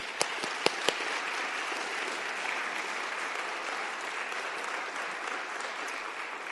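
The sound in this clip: Applause from a church audience at First United Methodist Church in Marion, welcoming back a returning speaker. Dense, steady clapping fills the whole clip, with a few sharper individual claps standing out near the start.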